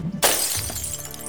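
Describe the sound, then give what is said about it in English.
An empty glass bottle shattering as it lands on a pile of broken glass. After a brief quiet moment comes one sharp, bright crash, then a ringing spill of tinkling shards that gradually fades. “It broke on a pile of glass.”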